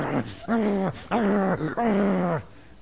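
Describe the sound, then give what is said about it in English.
A human voice imitates a dog charging down a church aisle with a few drawn-out, growling, whining vocal bursts, each sliding down in pitch at its end. “the dog got up from its seat, which was on the floor, and he came at me right down the middle of the aisle going,”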